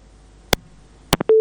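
A telephone line after a call is cut off: a few sharp clicks, then a steady, flat, mid-pitched tone that sounds alone at the end.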